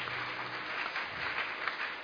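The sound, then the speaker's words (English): Church audience clapping in support of people coming forward, an even, dense crackle of many hands held at a moderate, fairly soft level without any break. “Clap for them, Koinonia.”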